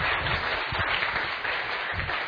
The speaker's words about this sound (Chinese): 谢谢，给他一点掌声。